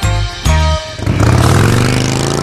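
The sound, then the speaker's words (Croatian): Motorcycle engines roar loudly in a deep, throaty rumble, swelling with a burst of revving and then holding a steady, dense growl throughout. “Osjeti grmljavinu motora i energiju dobrog rock'n'rolla.”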